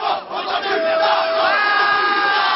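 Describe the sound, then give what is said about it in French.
An agitated crowd of about 200 young people shouts insults at an arriving minister's entourage, a loud, continuous roar of massed yelling with one long, drawn-out cry held above the din. “Autour, 200 jeunes, un comité d'accueil plutôt agité. Les premiers projectiles fusent avec les insultes.”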